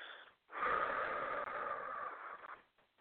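A slow exhale of a held breath during a guided relaxation breathing exercise. A steady, breathy rush of air lasts about two seconds and then fades out.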